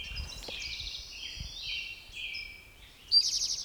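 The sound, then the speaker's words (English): A Western Tanager sings in faint, chirpy, buzzy phrases that rise and fall unevenly, with a slightly louder burst of rapid notes at the end and no voices. “I don't see the bird yet, Western Tanager in the background.”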